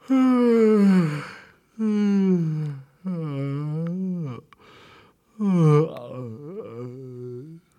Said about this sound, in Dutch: Kabouter Wakker begon te geeuwen.